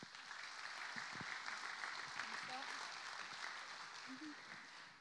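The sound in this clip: Applause from an audience welcoming guests at a gathering: steady, even clapping that holds for about five seconds at a modest level, with a few voices mixed in.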